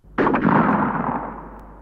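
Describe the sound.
A single gunshot fired at a wolf cub: a sudden sharp crack that opens into a loud, broad boom, then fades slowly over more than a second.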